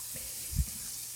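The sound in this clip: Onion frying in a pan gives a steady, faint, high sizzling hiss throughout, broken once by a brief low thump partway through.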